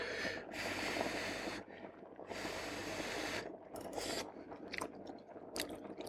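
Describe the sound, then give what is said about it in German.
Wet, crunchy chewing of cooked pasta noodles that are still quite firm, tasted mid-cooking: loud, irregular bursts of mastication with short pauses between them, and no talking. “Ich probiere jetzt nochmal kurz die Nudeln.”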